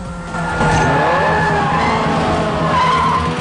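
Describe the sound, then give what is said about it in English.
Tires squeal and skid as a police car power-slides during a street chase, a loud, continuous screech with wavering tones over a roaring engine that swells sharply after a quiet start, with no voices. “The police car tries to do the same, but smashes into another vehicle.”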